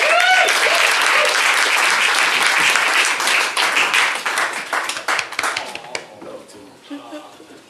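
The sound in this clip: Loud applause from a studio audience welcoming a guest to a comedy roast, a thick burst of many clapping hands that thins into scattered claps and fades out over the final seconds.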